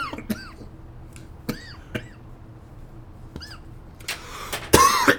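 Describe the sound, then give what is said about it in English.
Coughing after a sip of schnapps: a harsh, loud cough burst near the end, preceded by several short, faint sounds. “That's what made me cough.”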